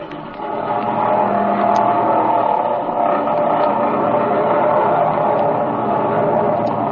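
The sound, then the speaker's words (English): Airplane engine revving for takeoff in a two-cockpit plane, a loud, steady, continuous roar that holds from start to finish. “All right, let's take off. Get in that front cockpit and I'll ride the rear. She's all ready to go, boys.”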